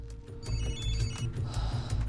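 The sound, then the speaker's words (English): A mobile phone rings with fast, regular electronic pulses that repeat steadily for about two seconds, moderately loud over a low background hum. “Nevins groggily comes round to the ringing of his mobile. In the car, Bourne's phone beeps also.”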